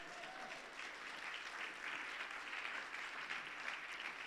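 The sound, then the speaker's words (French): Congregation applause at a church service acclaiming the word of God, a steady, even patter of clapping that stays fairly faint throughout. “Mais vous pouvez acclamer la parole de Dieu, Dieu est bon.”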